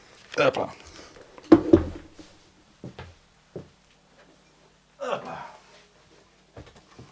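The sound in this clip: A Duesenberg guitar is fetched and picked up: a few scattered clunks and handling rustles, each brief burst separated by quiet gaps.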